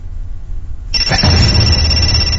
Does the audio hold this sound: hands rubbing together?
no